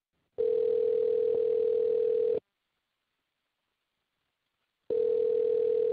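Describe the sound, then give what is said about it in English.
Telephone tone heard while placing a call: two long, steady, loud bursts of a single pitch separated by a silent pause, with no voices. “Let's call Whitney right now, okay? Great. Sounds good. Hang on.”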